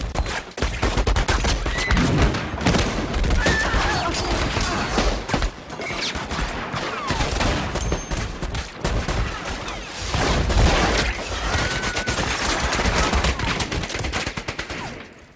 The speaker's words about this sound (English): first, the three guys start all shooting each other in the nuts, right? Stiglitz is going ham.